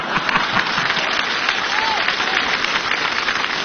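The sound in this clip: Audience applause at a live stage show: dense, continuous clapping that holds an even loudness from start to finish, with no pauses.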